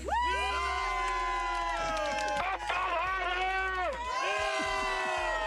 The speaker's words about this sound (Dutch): Kunnen ze ook herrie maken, denk jij? Zij kunnen allemaal herrie maken. Let op, even wachten. Hey, team Summa Sport, laat je eens even horen hier, hoor.